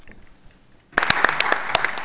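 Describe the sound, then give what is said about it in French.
Audience applause at a donor pledging announcement bursts in abruptly after a near-silent first second, then continues as a loud, dense, steady clatter of many hands to the end. “Je pense que ceci mérite des applaudissements.”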